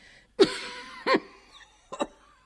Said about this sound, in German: Der Husten schmerzt.